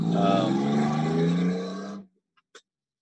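A loud vehicle roar with a low engine hum fills the first two seconds, then cuts off abruptly, leaving near silence broken by two faint clicks.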